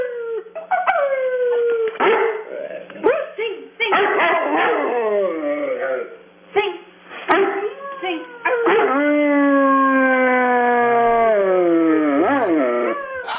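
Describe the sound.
A dog howls on command in long, drawn-out wavering wails that rise and slide downward, mixed with yips and short barks, loud and sustained, with brief human voices in between.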